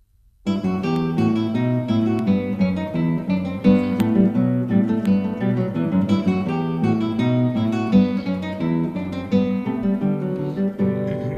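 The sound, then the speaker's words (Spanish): Bourrée in E minor, a French dance, played as music: a continuous, steady run of harmonic notes that starts after a brief moment of silence and keeps an even dance pulse at moderate loudness throughout. “Estamos escuchando la Bourrée, es una danza francesa, en mi menor, de Johann Sebastian Bach.”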